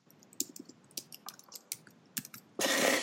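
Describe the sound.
Someone types a website address on a computer keyboard, with sharp key clicks in an irregular rhythm, some louder than others, before a sudden steady rush of noise at the end.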